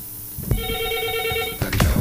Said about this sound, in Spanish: Bueno, vamos a recibir esta primera llamada.